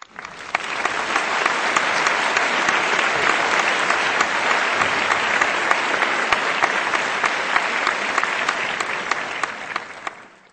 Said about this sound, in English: Please give her a warm welcome of applause.